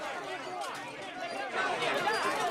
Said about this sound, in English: the double doors at the entrance to the restaurant are opened, revealing a scrum of well-wishers, autograph hunters, and press.